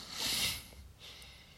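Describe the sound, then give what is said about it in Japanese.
A person with a runny nose blowing it: a breathy, hissing blast swells and fades, then a second, weaker burst of air follows, with no talking. “すみません鼻水噛んでました”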